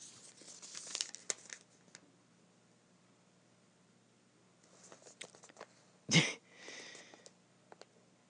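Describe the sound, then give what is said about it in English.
A marker scratches across paper in clusters of short, dry, hissy strokes, with a stretch of near silence between them and one louder, harsher stroke near the end, all fairly faint. “it's someone just going. That's the sound of the marker. Drawing.”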